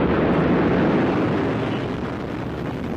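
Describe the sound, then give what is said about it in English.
A rocket carrying the Starliner spacecraft lifts off with a loud, dense, continuous roar that crackles steadily and eases slightly toward the end. “four, three, two, one, and lift off! The rise of Starliner and a new era in human spaceflight.”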